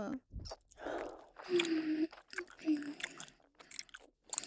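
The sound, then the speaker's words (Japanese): A girl chews gum, recorded binaurally: soft, wet smacking and sticky clicks come in an irregular series of short bursts, faint and close. “両耳同時に女の子のガムを噛むエッチな音。”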